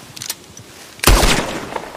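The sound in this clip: A single gunshot in the video game Red Dead Redemption 2: one sharp, loud blast with a decaying tail, preceded by faint, scattered softer sounds.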